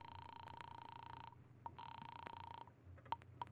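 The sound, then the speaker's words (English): A telephone number being dialed: two long electronic tone bursts separated by a short gap, then a few faint clicks, with no talk. “there's a smile on your lips as you dial the number of your office.”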